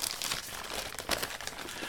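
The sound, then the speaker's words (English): Paper crinkling as a Christmas package is unwrapped, a loud, continuous rustle with sharper crackling bursts throughout and no talking. “Let's unwrap this first package and see what we have.”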